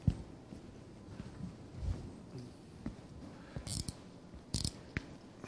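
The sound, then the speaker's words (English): Marker strokes on a whiteboard as a word is written: a few brief, faint scratchy squeaks over a low, steady background hiss. “For the sake of those online, I'm just writing the word evil on the marker board here.”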